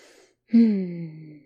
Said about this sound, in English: Let's just breathe deep some more.